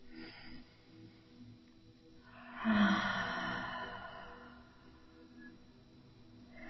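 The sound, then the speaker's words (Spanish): One deep inhale and exhale through the mouth forms a single airy, breathy swell that rises and slowly fades over a couple of seconds above a faint, steady background. “Haces una inhalación profunda y exhalas con la boca.”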